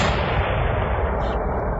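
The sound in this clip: Explosion sound effect: a loud, dense, continuous roar with heavy low rumble that lasts unbroken for about two seconds, with no voices.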